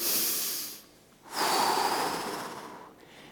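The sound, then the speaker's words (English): A church audience takes a deep breath together on a count of three. The loud, rushing breath noise swells, drops for a moment, then rises again in a longer wave and fades away. “Let's, on the count of three, let's all take a deep breath.”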